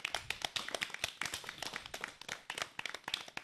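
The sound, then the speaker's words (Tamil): An audience applauds a child's Tamil pronunciation with dense, irregular clapping from many hands, held at a steady, fairly soft level. “ஜாய்சியின் Tamil உச்சரிப்புக்கு நாம் அனைவரும் பரத்த கரவொளி எழுப்பி நம் பாராட்டுக்களை தெரிவிப்போம்.”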